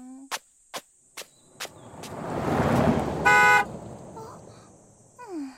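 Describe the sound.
A car drives past and honks once. Its engine noise swells and fades around a short, bright horn blast, following a few sharp clicks, while crickets chirp steadily throughout.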